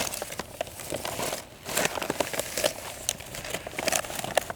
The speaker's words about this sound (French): Je déplie la carte IGN.